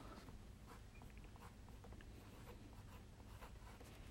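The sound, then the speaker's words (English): A pen scratches faintly on paper as a note is written by hand, a soft, continuous scribbling with small strokes and no talking. “I'm gonna write down idea.”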